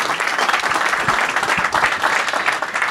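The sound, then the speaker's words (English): Applause from a church audience welcoming a pastor to the stage. Dense, loud clapping carries steadily through the whole clip with no talk over it. “would you put your hands together and welcome Tim Miller”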